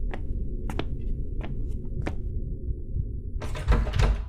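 Someone tries the handle of a locked door: a few sharp metallic clicks spaced over the first two seconds, then a louder burst of rattling clatter near the end, with a low background rumble throughout and no voices.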